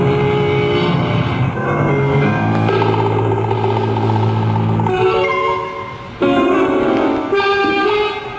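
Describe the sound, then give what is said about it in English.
A motorboat engine drones on a lake. The roar is loud and continuous, and its tone shifts and surges a few times with no talk over it. “They're cutting across. Hold on, I've got to swerve. Ginny, that's him. That's Mark Howgate in that boat.”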